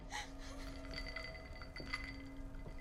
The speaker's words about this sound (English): holds out a glass tumbler with ice.